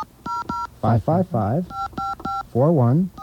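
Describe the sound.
Touch-tone telephone dialing, with crisp dual-tone beeps in several short bursts: a pair at the start and a quicker run later. People talk between the tone groups.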